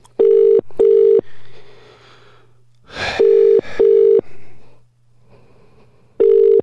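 A telephone call to a mobile on the EE network rings, giving a loud double-pulse ringing tone that repeats three times. A faint steady tone and a brief burst of noise sit between the rings.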